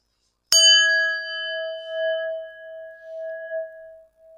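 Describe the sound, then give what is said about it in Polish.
A singing bowl is struck once with a sharp, bright attack. It then rings in a long, pure tone that fades slowly with a gentle wavering pulse, while the higher overtones die away quickly. “Czasami myślę, że dźwięk tej misy jest bardzo podobny do misy kościelnej.”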